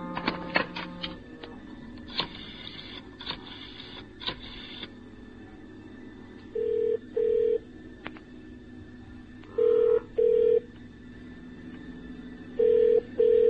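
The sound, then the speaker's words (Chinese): Unanswered telephone ringing in a room: after a few short electronic tones, the phone rings in three double-ring cycles, steady and evenly spaced, with no voices. “我都系打个电话入佢房，喊下声气把啦啊。”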